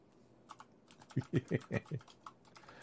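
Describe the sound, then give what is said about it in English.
Keystrokes on a computer keyboard while searching a shopping section for a phone price: lighter scattered taps, then a quick run of several louder, heavier clacks in an uneven rhythm. No one talks. “I will also type...”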